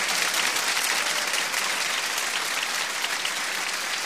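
Dense, steady applause from an audience clapping along at a religious gathering devoted to Hussein, a continuous even wash of many hands throughout, with no voices standing out.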